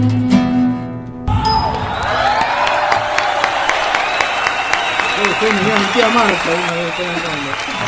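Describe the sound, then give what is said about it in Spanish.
Hand clapping after a sung song, a run of sharp, crisp claps beneath people talking, following a brief stretch of music at the very start. “Te lo aplaudí igual.”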